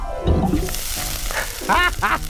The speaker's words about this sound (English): I'll just drop the spoon in the lava and burn the spot right off! Say goodbye, spoon!